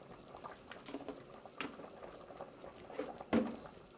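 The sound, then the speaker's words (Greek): Soft bubbling of potatoes and carrots boiling in a pot, a faint, irregular stream of small pops and gurgles with one slightly louder pop near the end. “Συνεχίζουμε το βράσιμο. Μέχρι να μαλακώσει καλά η πατάτα και το καρότο.”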